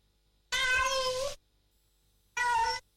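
A cat meows twice, loud and clear with no other sound between: a long, drawn-out first meow, then a shorter second one after a pause.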